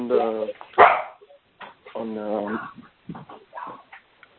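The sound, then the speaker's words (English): A pet dog barks during an online meeting, a few sharp harmonic barks interleaved with a person talking. “sorry, that's my dog, or Anu's dog.”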